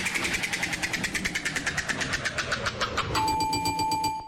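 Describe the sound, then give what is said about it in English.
A prize wheel for ticket giveaways at the Iowa State Fair spins with many rapid, sharp clicks in an even rhythm, then a sustained ringing tone joins near the end. “Let's spin that wheel.”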